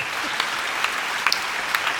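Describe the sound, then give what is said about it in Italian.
Applause for a lady: a dense, steady patter of many hands clapping, with a few sharper claps standing out, running through the whole clip. “Attenzione, un belinarci, un applauso alla signora.”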